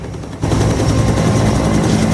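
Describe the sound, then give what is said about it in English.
A helicopter landing on a street: after a brief quieter moment, a loud, dense roar of rotor wash and engine sets in abruptly, with a rapid chopping rumble underneath that continues steadily to the end. “A helicopter lands on the street, Marines tending to a wounded soldier ducking down as a blast of dusty wind sweeps over them.”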